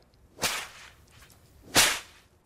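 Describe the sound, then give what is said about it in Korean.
Two sharp whip cracks split the air on stage as Pozzo drives Lucky forward, each a loud, bright snap with a short tail, about a second and a half apart and alone otherwise. “채찍 소리. 럭키 휘청거린다.”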